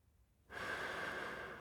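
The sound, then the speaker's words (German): A single deep breath drawn in during a forest walk among mushrooms: a soft, airy hiss that begins after a short silence and is sustained evenly to the end. “Ich atme tief ein.”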